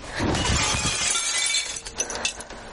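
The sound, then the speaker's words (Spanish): A bathroom mirror over the sink shatters as it is struck with a hair dryer. A loud crash of breaking glass fills the first half, then scattered clinks and tinkles of falling shards continue to the end. “En el baño, Sara rompe el espejo del lavabo con un secador.”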